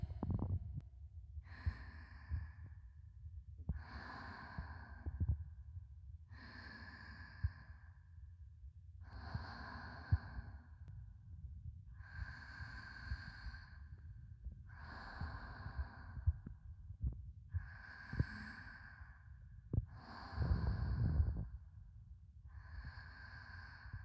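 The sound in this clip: Slow, deep breathing, faint and quiet, with a series of evenly spaced long inhales and exhales that rise and fade in a calm, regular rhythm and no talk.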